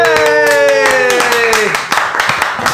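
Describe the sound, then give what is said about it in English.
Hands clapping for graduates at the close of a graduation ceremony, with many crisp claps under loud sustained voices and tones that slide downward before the clapping turns sparser and scattered. “And that concludes the class of 2017. Give it up for your graduates.”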